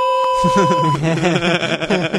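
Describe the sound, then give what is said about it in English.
An electronic beep: a steady, high tone that lasts about a second and overlaps the start of talk, after which voices continue speaking. “I like this whole beeping thing that we're going to do now.”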